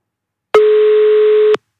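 A telephone ringing tone on a call: one loud, steady beep at a constant pitch lasts about a second, starting and stopping abruptly between stretches of silence.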